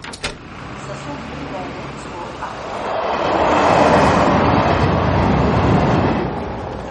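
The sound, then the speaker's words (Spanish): A train travels on rails: a broad, rushing rumble that swells louder toward the middle and stays fairly even before easing slightly at the end, with a couple of brief knocks early on. “Al día siguiente viajan en tren hacia Lille.”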